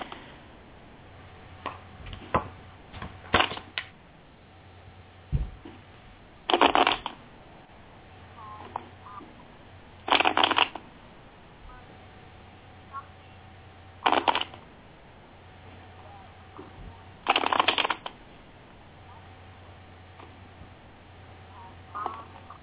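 Tarot cards shuffled for a reading: four short, crisp bursts of riffling spaced a few seconds apart, with lighter taps and handling noise between them over a faint, steady low hum.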